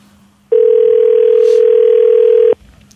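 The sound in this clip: A single telephone ringing tone sounds on the line while a call connects: one steady, loud, mid-pitched tone lasting about two seconds, with faint low sounds before and after it.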